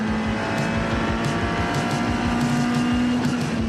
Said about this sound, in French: regardez ça, à quelle vitesse je double l'Audi GT4. Je l'ai laissé sur place. Génial à conduire.